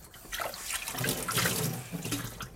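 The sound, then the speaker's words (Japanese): Tap water runs into a sink while dishes are washed by hand, making a fairly quiet, uneven splashing rush that carries on throughout with no talk. “えー、お湯を沸かしながら洗い物をしよう。”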